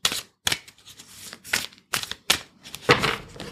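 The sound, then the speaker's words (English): Papery rustles and snaps as a tarot card is pulled from a deck. A series of short, crisp bursts comes in an uneven rhythm, fairly loud and with no talking. “What I'm going to do for this episode is I'm going to pull a card.”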